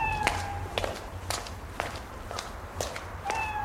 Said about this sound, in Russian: кошка идет за ней